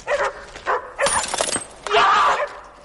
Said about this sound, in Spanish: Camina dando tumbos mientras los perros le rodean y siguen ladrando.